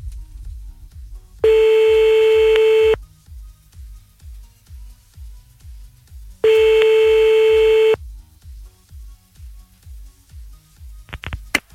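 Telephone ringback tones while calling someone back: two long, steady beeps of about a second and a half each, separated by a pause of several seconds, over a rhythmic low thumping pulse that continues throughout.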